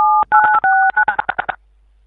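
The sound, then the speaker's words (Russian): Touch-tone telephone dialing: a run of clean, loud DTMF beeps, the first few long and steady, then a quicker burst of many short tones separated by faint clicks, with no voices. “Сейчас наркологическую буду звонить.”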